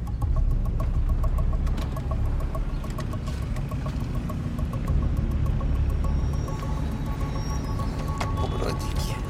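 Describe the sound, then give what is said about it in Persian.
Steady engine rumble from a car driving along a city street, a continuous low drone with a faint tonal hum running through it, unbroken for the whole stretch. “توی خیابون رانندگی میکنه.”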